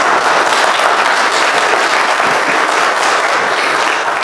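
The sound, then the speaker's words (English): Congregation applause welcoming new church members, a loud, dense and unbroken patter of clapping that stays steady throughout. “If you'll give a hand to our newest members.”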